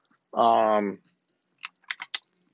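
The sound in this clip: Typing on a computer keyboard to search for a synthesizer's name: a brief hummed vocal sound, then a few short, crisp key clicks in quick succession.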